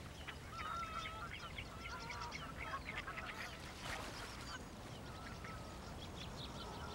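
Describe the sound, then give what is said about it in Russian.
Geese on a lake honk over a steady wash of background noise. Many overlapping honks and calls come from several birds, fairly faint and continuing without a break throughout. “По озеру плывут гуси.”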